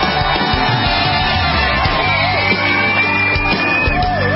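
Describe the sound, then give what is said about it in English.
Audience cheering and shouting welcome a speaker to the stage in a loud, unbroken wall of crowd noise with yells rising above it. “Ladies and gentlemen, put your hands together and please welcome Brooke Goldstein.”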